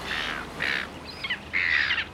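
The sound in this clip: Harsh, squawking bird calls from birds crowding a person eating a sandwich, including a juvenile, come in a few loud, separate bursts with short gaps between them. No voices are heard.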